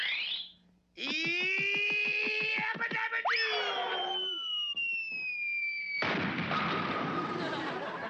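Cartoon sound effects for a bowling ball bouncing off the backboard into the pins for a reverse strike: a run of whistling, boing-like tonal effects ends in a loud, noisy crash that holds for about two seconds.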